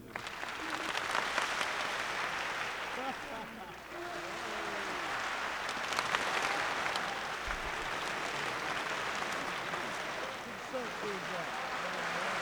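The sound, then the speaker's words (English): An audience claps steadily for about twelve seconds, a dense continuous patter that never fully stops. People talk over the clapping throughout. “So if I go over here, boop, you start clapping, and I move my hand across like this, and as it goes this way, you guys stop, so the sound moves around the room.”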